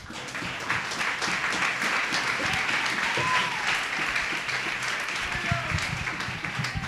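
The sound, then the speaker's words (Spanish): A church audience applauds in a sustained, dense wash of clapping that stays steady throughout, with voices mixed in beneath it. “Venga, dale un aplauso al Señor.”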